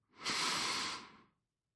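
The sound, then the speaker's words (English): A single deep breath is drawn in slowly during a guided meditation, airy and steady, lasting about a second before fading out. No voices are heard. “Let's take a deep inhalation.”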